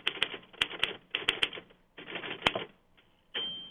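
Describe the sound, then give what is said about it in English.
Crisp, snappy key strikes from a big Royal typewriter of the late 1930s come in several quick bursts with short pauses, ending on a brief sustained mechanical whir. “On my desk here is a Royal, a big Royal machine from about the same time, the late 30s. And that's just very snappy and makes a very nice sound.”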